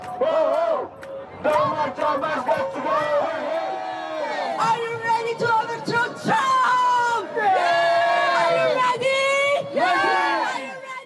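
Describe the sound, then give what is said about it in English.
Thousands of protesters in the heart of Brussels demonstrating against Donald Trump's visit: loud, rhythmic shouted chants and whoops from a massed crowd that rise and fall in waves throughout. “in the heart of Brussels, thousands of people turned out to make sure his stay was marked by the message that he was not welcome.”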